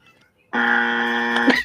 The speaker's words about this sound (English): That is a buzzer, which would indicate that they are incorrect.